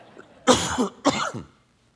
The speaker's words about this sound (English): Hopefully my tickle in my throat will go away.